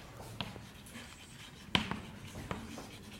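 Writing out a formula during a maths lecture, heard as a few light taps and scratches with one sharper knock near the middle, over a quiet background and without talk.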